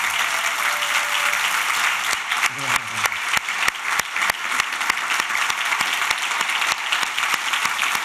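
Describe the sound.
A church audience applauds as a guest doctor is welcomed and asked to stand. The clapping is continuous, with sharp individual claps standing out, and a voice is briefly heard over it.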